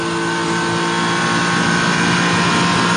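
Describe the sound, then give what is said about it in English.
A racing car engine at the end of Conrod Straight, holding a loud, constant high-revving drone with dense, buzzing harmonics throughout. “we'll stay with him and just listen for whether he comes out of the throttle here.”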